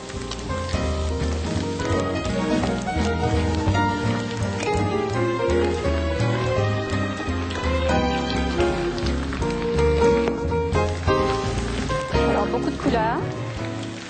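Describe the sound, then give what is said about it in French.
Tofu and vegetables fry in a large pan with oil, giving a steady crackling sizzle that continues evenly through the whole stretch. “Alors maintenant que notre tofu est suffisamment doré, nous allons ajouter le restant des légumes. Alors c'est pour cela qu'on a besoin quand même d'une grande poêle.”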